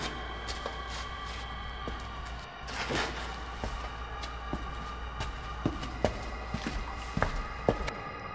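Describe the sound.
Footsteps descend a deep staircase leading down into a crypt, a steady run of many soft thudding steps over a constant low hum.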